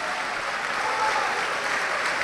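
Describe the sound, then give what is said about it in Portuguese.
Applause from a church audience during a worship service, with steady, even clapping that holds at one level throughout, without voices. “Vamos aplaudir o Senhor.”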